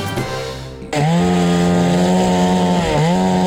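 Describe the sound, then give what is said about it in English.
Firefighters' chainsaws cut fallen trees at a smoky fire scene. An engine revs up sharply into a loud, steady, high buzzing whine that dips briefly before returning to full speed. “That's the sound of chainsaws being used by firefighters cutting fallen trees.”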